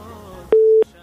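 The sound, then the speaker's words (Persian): A single steady telephone tone sounds as a phone call is connected, a clean, loud beep lasting about a third of a second, with only faint background noise before and after. “میریم تماس بعدی را وصل میسازیم، ببینیم کدام عزیز ما هست، از کجا تماس گرفته.”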